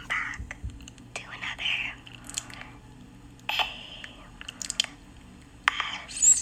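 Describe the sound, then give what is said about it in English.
Close-up biting and chewing of raw honeycomb for ASMR eating: intermittent sticky, crackly bursts with soft wet squishes between them, over a faint low steady hum. “Eating raw honeycomb. This is fucking disgusting.”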